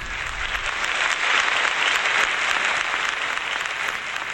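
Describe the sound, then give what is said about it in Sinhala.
Audience applause welcomes a singer onto the stage at a live song concert, a dense, even wash of clapping that holds steady for about four seconds with no voices over it. “රසවතුනි ඒ වෙනුවෙන් අපේ හොඳ අත්පොල් සම්ප්‍රසාදයකින් ආරාධනා කර මුලින්ම අද සඳදිය ධර්මයේ ප්‍රාසංගික සජීවකරණයේ ගයන්නට TM Jayaratne ප්‍රවීණ ගායන වේදිකාවට”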